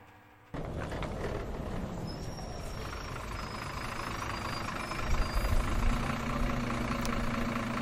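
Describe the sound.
A vehicle engine idles in front of a school yard before a school trip, a steady low rumble with a faint hiss. It starts abruptly after a brief quiet moment and swells slightly midway.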